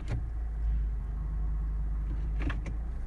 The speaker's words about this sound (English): It vibrates, especially if, if I'm holding the brake and I put it in gear.